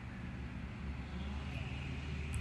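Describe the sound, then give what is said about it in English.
A truck's engine produces a steady, low, continuous rumble with no distinct events, fairly faint throughout. “But here lies the frustrating aspect of this loud truck over here”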